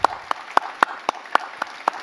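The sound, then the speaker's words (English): Congregation in church claps in unison, eight sharp claps on an even, brisk beat with quiet gaps between them and no voices. “Let's give applause to the Lord.”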